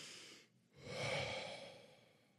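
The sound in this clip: A person imitates a distressed, catching gasp of breath: a short breath, a brief pause, then a long, noisy, breathy intake that swells and slowly fades.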